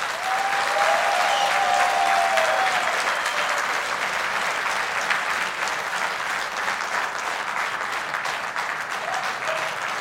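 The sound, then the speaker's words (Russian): An audience claps steadily in front of a stage as performers are introduced. The applause is dense and continuous for the whole stretch and eases only slightly toward the end. “И вот сегодня на этой сцене я хочу пригласить под ваши бурные аплодисменты Марк Бамштейн.”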